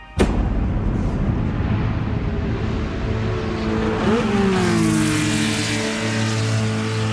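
Formula 1 race cars roar off the start of a Grand Prix at the Jacarepaguá circuit in Rio de Janeiro in 1988. A loud, sustained engine blare begins abruptly, and a whining pitch climbs near the middle before levelling off.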